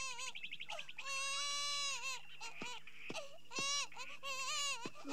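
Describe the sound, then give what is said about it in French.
A baby crying in an animated film soundtrack: several loud, high wailing cries with wavering, bending pitch, broken by short pauses and heard alone without talk. “Sur la Terre, un sympathique vieillard à l'abondante moustache blanche est intrigué par les pleurs d'un bébé”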